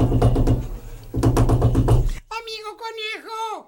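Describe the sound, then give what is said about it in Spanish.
Insistent knocking on a door: rapid, steady knocks come in two bursts separated by a short gap, then a voice calls out in a high, pleading tone. “Y de pronto llamaron a la puerta con gran insistencia.”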